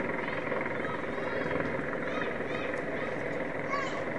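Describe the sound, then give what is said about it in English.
Helicopter landing on the roof of a children's hospital next to a ballpark, its steady rotor and engine drone running beneath continuous talk. “The helicopter landing on top of the Children's Hospital.”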